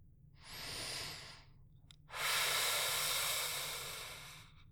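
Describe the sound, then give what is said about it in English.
Deep breathing during a stethoscope chest exam: a soft, airy inhale lasting about a second, a brief pause, then a longer and stronger hissing exhale that tapers off slowly. It is faint overall, with no talk. “Nice deep breath in now.”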